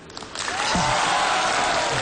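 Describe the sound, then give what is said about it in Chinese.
An audience applauds at a Lunar New Year show for the Year of the Dragon, the clapping swelling in after a quieter start and then holding as a dense, even roar. “谢谢大家这么热烈的掌声，当然了，掌声再热一点就更好”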